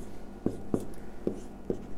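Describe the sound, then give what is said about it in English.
A diagram being drawn, with four short, crisp pen or marker strokes tapping and scratching at irregular spacing over a low, steady background. “Okay, so let's draw this out.”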